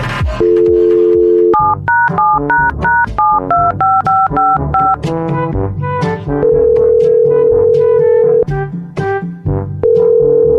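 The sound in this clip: Touch-tone beeps dial a telephone call in a rapid series of loud dual-tone presses. Longer steady tones sound in between, with no voices.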